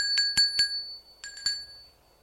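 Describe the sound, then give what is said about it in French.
A bell at a courtyard gate rings in two short bursts of bright, high metallic strikes, a few rings each, with the ringing fading out after the second burst. “alors que tout le monde est parti, l'on sonne au portail de la cour.”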